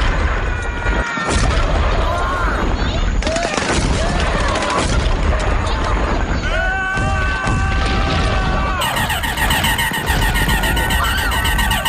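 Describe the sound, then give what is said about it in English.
Video game gunfire during a shooting attack fills the scene with dense bursts of rapid shots and heavy booms. Sustained electronic tones ring underneath, and the loud barrage never lets up. “You're attacking the kid right now. I'm shooting him.”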